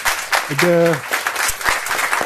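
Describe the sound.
An audience at a debate event applauds to thank the panelists, with a broad, continuous patter of clapping and a voice speaking over it.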